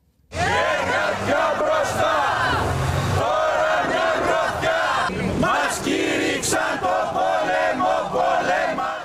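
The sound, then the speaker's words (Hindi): Protesters chant slogans at a public sector workers' rally in Athens against bailout conditions and spending cuts. After a brief quiet moment a loud mass of shouting voices begins and keeps up, dense and sustained, with rough crowd noise throughout. “कर्मचारियों ने Athens की सड़कों पर रैलियां निकाली और bailout की शर्तों के खिलाफ नारे लगाए।”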